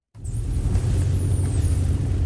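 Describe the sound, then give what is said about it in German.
A car drives at night into a dark forest above Scuol in the Lower Engadine, with a window open. It starts abruptly as a steady low engine rumble with a faint airy hiss above it. “Zusammen mit dem Wildhüter Kurdin Florinet fahren wir in den dunklen Wald oberhalb von Schkuhl.”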